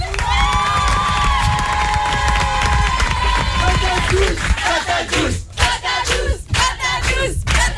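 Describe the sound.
A studio audience on a talk show cheers and shouts loudly, then breaks into bursts of clapping in the second half.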